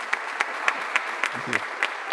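Applause greets a guest, a steady even clatter of many hands clapping, marked by regular sharper peaks across the short stretch.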